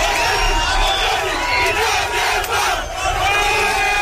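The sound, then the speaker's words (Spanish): A crowd of neighbours cheers and shouts in celebration as the border fence between Gibraltar and the Spanish mainland comes down, a dense, continuous roar of whoops and yells that stays loud throughout. “El sonido de cómo celebraban vecinos de esa zona la caída de la verja que durante 117 años ha separado el Peñón y la península.”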